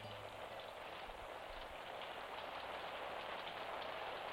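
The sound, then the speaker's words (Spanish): Steady rain, a continuous even hiss of falling drops that stays faint and unchanging throughout, with no voices. “La lluvia salió a raudales del Palacio del Sol hacia la choza de Vitucho.”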